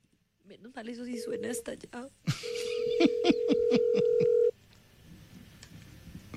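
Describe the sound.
A telephone call rings unanswered, a steady ringback tone holding for about two seconds while people talk loudly over it.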